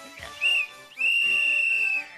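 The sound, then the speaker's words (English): A whistle blown twice: a short shrill blast, then a longer steady high-pitched blast of about a second, loud and alone with no talk. “Stop blowing that whistle! I've got another whistle!”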